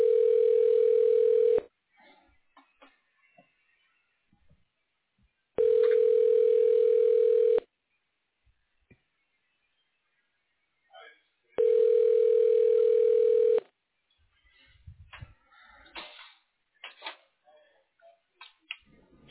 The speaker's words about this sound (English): I can transfer you over to her office line.